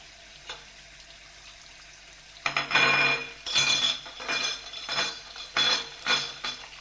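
A dish towel rubs over a plate being dried by hand, making a series of short, rhythmic wiping strokes with a scratchy, hissing texture and light clinks, preceded by a quieter stretch.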